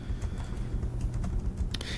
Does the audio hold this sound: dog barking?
no